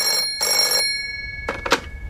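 A telephone bell rings in a military court office: two shrill, close bursts of ringing, followed by a few fainter, shorter sounds.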